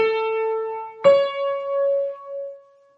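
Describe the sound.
Two sustained musical notes a major third apart, do then mi: the lower tone holds steadily for about a second, then the higher note strikes and rings out clearly, slowly fading away with no voices.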